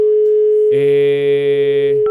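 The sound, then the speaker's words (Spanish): Telephone tones heard while dialing a number: a steady, loud single dial tone, then a louder, fuller multi-tone signal that holds for over a second, ending with a short two-note keypad beep. “Ok, ya tenemos el nuevo número. Vamos a marcar, vamos a marcar, vamos a marcar.”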